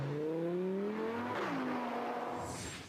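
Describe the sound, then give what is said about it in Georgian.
A small car's engine roars and revs loudly and without pause, its tone climbing steadily before dropping sharply and then holding a steadier drone. “მილიონერებს ის მხოლოდ ცისრაფის გამო კი არ მოსწონთ, ასევე მისი უნიკალური ომახიანი ბღუილის გამო უყვართ. ეს პატარა მანქანა ნამდვილი მონსტრივით ხმოის.”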